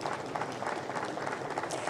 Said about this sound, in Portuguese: Começamos com a senadora Daniela Ribeiro como a primeira mulher a ocupar a secretaria da mesa. Um aplauso. Daniela, você merece.